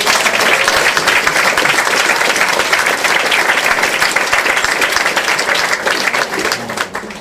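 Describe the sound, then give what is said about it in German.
An audience at a literary reading stage gives an author a long round of dense, loud clapping that holds steady and then tapers slightly at the end. “Riesenapplaus bitte für Doc Michael Bitt.”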